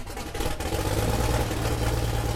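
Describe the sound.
Piston engines of a 9-seater twin-engine Cessna 402 starting and taxiing in front of a maintenance hangar at an airport, a steady mid-to-low drone with a constant tonal hum that grows louder after a brief softer opening.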